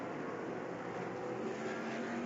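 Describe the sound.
Roar of race cars restarting under green flag at the 2021 12 Hours of Sebring endurance race, a Cadillac prototype leading; a dense, steady engine drone holds loud and unbroken throughout.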